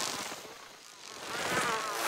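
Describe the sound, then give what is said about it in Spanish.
Buzzing of many different insects outdoors at night, a steady, dense hum that fades slightly midway and then swells again over about two seconds. “Hay muchos insectos diferentes afuera esta noche.”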